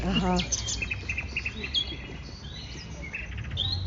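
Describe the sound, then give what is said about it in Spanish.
Nocturnal bird calls from a compilation: faint short chirps and thin whistles, some in quick repeated runs, over a low, noisy background. “Ahora, en contraste, estamos escuchando una compilación de pájaros nocturnos.”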